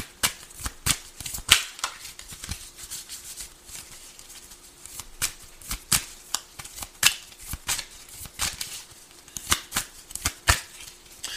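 Tarot cards being shuffled by hand, a soft, quick patter of riffling clicks and papery flutters that comes in uneven bursts throughout. The sound stays fairly quiet, with no talking.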